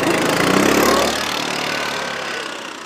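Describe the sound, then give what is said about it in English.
A snow grooming machine's engine runs on a Nordic ski trail, a steady, mid-pitched droning rumble with broad mechanical noise. It is a little louder in the first second, then holds level and eases off slightly. “But toward the end of the ride, when our trail crosses a Nordic ski trail, a grooming machine approaches.”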